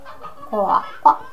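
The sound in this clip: A chicken clucks in a henhouse: a few short, nasal clucks, the first one drawn out and the later ones quick and punchy, with quiet gaps between them.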